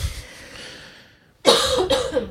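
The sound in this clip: Someone coughs harshly to clear something caught in the throat. After a quiet stretch comes a sudden burst of a few loud, rough coughs close together.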